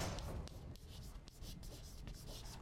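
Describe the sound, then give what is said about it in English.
A pen scratches softly as something is written down, faint strokes coming in quick, irregular succession. “I like to write this down”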